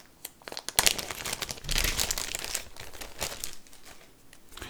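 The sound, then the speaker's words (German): A tarot card deck being shuffled, giving crisp papery crinkling and riffling in many quick bursts that swell and ease off over several seconds, with no voices. “Dann schnappen wir uns mal das Tarot-Deck, mischen einmal gut durch.”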